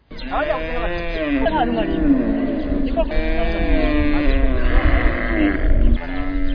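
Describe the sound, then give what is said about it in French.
A herd of more than 200 cows, held by farmers on a youth centre's grounds in Gihanga, moos almost continuously in overlapping, low, drawn-out calls. “Ces vaches que vous entendez”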